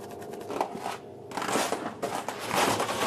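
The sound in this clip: Cutting a one-meter section off an ice core sample gives a steady, gritty scraping and grinding noise. It pauses briefly near the middle, then resumes louder with rough, crackling texture, with no voices.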